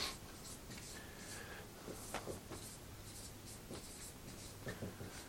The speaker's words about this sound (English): One of them is, I'll write that out, discourse